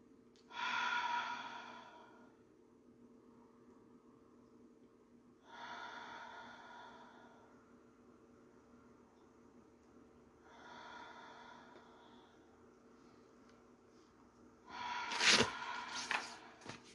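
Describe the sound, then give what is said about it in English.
Deep, slow breaths are taken during a guided pause. A few long, airy breaths come several seconds apart, and a louder, sharper breath sounds near the end. “Let's take 5 deep breaths, okay? Ready, set, go.”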